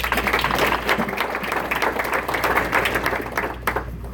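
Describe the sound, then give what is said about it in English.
Applause from an audience welcoming a panelist, dense clapping of fairly even strength that fluctuates slightly and thins a little toward the end. “Please give a warm welcoming hand again to Antje.”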